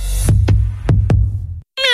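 A cat gives one short, bright meow at the very end, after a low humming drone marked by a few sharp clicks and a brief pause.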